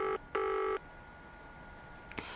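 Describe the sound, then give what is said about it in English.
Telephone keypad tones as a phone number is dialled: two steady electronic beeps, the second longer than the first, then a pause of low hiss with a faint brief noise near the end. “I've got to phone Wobbler.”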